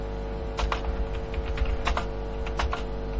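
Fingers type on a computer keyboard in quick, irregular bursts of clicking keystrokes over a constant low hum, with no talk.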